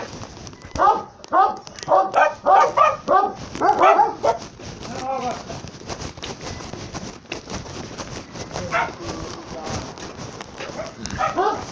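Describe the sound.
Small dog barking: a quick run of many sharp, fairly high yaps at the start, followed by occasional single barks and a human voice over a rough background.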